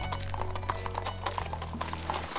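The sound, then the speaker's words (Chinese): Hooves of a horse-drawn carriage moving fast clip-clop in a quick, steady rhythm of many light knocks, with a low sustained hum beneath throughout. “我掀开帘子朝外看，马车走得很快，但因为车子性能好。这种程度的颠簸也能接受”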